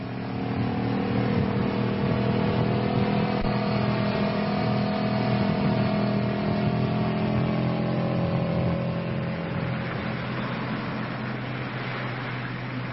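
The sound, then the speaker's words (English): A motorcycle engine comes up from behind on a police motorcycle, a steady mid-pitched drone with a gentle rumble that holds fairly even throughout, with no voices. “It's a motorcycle cop coming up behind us.”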